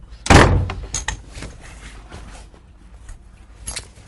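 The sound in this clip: A door is shut with a loud slamming thud, followed by a few fainter clicks, knocks and rattles as it is locked.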